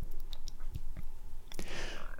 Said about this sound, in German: Mit der Zunge befeuchtet sie ihre trockenen und fahlen Lippen. Dabei entsteht ein schnalzendes Schmatzen